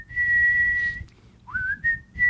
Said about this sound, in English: Whistle really badly.